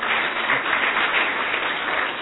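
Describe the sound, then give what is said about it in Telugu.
An audience claps together in a dense, even patter of many hands that holds at a moderate level without pause for about two seconds. “ఈ చప్పట్లు మీకోసమే.”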